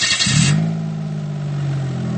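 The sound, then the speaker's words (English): A new four-stroke gasoline engine runs, starting with a brief noisy burst and then settling into a steady, low, even hum that continues alone to the end. “Then the new four-stroke machine, which burns gasoline like an automobile engine and produces no noticeable exhaust.”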